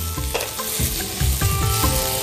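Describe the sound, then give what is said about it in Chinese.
Sizzling and clattering as cucumber slices are stir-fried and tossed in a hot wok, with a steady loud frying hiss and a few spatula strokes scraping and turning the food. “是不是锅温已经上来了？ 是。 好，现在我再翻两下”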